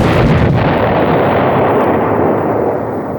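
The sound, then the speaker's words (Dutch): A large store of dynamite explodes at a school in one loud, roaring blast whose dense rumble fills the whole moment and tapers off slightly toward the end. “In de school is een grote voorraad dynamiet ontploft. De school ligt in puin.”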